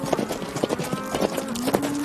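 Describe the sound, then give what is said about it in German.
A horse is ridden up while a cow is being herded, its hooves making a quick, steady clip-clop of many beats, with a faint sustained tone running beneath. “da kommt Wyatt angeritten”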